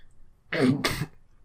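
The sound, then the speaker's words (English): Two harsh coughs in quick succession, fairly loud and heard alone with no talk around them. “No, I just had a cough.”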